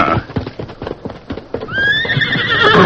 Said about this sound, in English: We'll mount up and ride over that way. Steady, big fella.